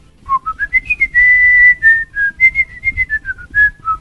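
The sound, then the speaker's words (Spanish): A person whistles part of a tune: a melodic run of short and held notes that climbs at first, lingers on one long sustained note, then wanders up and down. “una tonada, solo una parte de la pieza musical, y chiflo esa parte”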